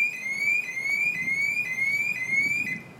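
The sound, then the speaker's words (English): A car alarm wails in a loud, steady cycle of repeating rising electronic tones, each sweep restarting about every half second with a bright, buzzy edge, sounding alone without voices. “Hey, look, it's a car alarm.”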